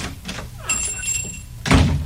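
A door opens as a customer enters a music shop, with a brief high ringing tone followed by a dull thump over a hissy background.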